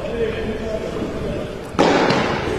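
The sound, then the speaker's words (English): A padel ball bouncing off the back wall during a match, a single sharp thud cutting into steady background noise while a commentator talks. “They call that a bajada, where the ball bounces off the back wall. Then you take an attacking swing at it.”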